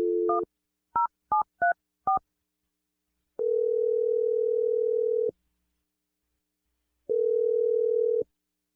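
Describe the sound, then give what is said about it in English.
Touch-tone telephone number being dialed: five quick keypad beeps in an uneven rhythm, followed by two long, steady, mid-pitched ringing tones separated by a pause, with no voices. “I'm going to dial Kat's number, and we're going to see what she says.”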